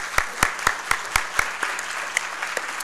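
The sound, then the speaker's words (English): Applause from an audience at a church service, welcoming people. The clapping is steady and rhythmic, at a moderate level, and continues throughout. “请转过头来，我们大家也鼓掌来鼓励他们，好吗 ？Let us welcome them.”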